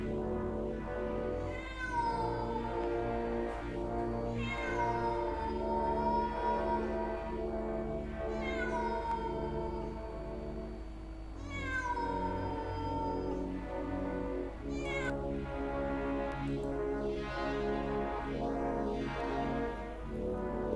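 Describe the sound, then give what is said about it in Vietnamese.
A cat meows many times in long, drawn-out, wailing calls, each sliding up or down in pitch, over a steady low hum with no voices. “Rồi có tiếng một con mèo kêu lên.”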